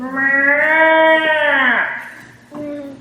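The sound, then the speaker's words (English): A voice imitates a doe deer's breeding bellow: a long, drawn-out nasal call whose pitch bends downward as it fades, followed after a short pause by the start of a second, shorter call. “the noise that a doe makes when she's done running and it's a, you know, a breeding bellow, if nothing else. And it sounds like this.”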